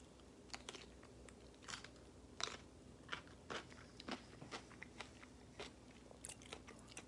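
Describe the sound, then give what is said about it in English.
Biting and crunching a spicy snack called Hottie Bites: many short, crisp crunches in an uneven chewing rhythm, faint throughout, with no talking. “so let's try this out. Here we go. Hottie Bites. How does it taste?”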